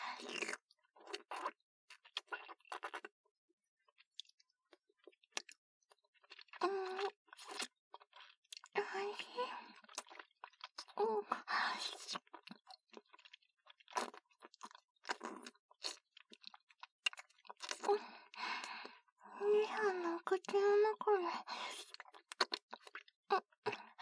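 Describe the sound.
Chocolate being eaten and rolled with the tongue: many irregular wet smacks, soft crunches and mouth clicks, with breathy vocal sounds now and then.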